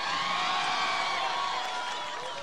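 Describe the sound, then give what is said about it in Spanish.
Spectators at a car rally awards ceremony cheer and applaud in a steady, dense roar of clapping and shouts that eases slightly toward the end. “¡Aplauso para los protagonistas! Vamos, que estamos cerrando la fecha. Yo sé que pedí aplausos, pero vamos, vamos, que se lo merecen los muchachos.”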